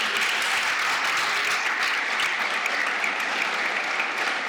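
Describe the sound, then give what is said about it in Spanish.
A church audience applauds during a sermon. The clapping is dense, steady and loud, continuing without a break from start to finish. “Un aplauso al rey, vamos, un aplauso.”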